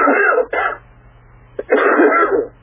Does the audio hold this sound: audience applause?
no